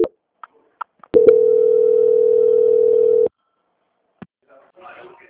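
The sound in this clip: A telephone line tone during a bank call transfer: a few sharp clicks, then a steady single-pitch tone held for about two seconds, followed by another click and faint rustling.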